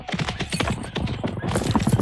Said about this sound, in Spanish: Caballo y jinete partieron como un huracán.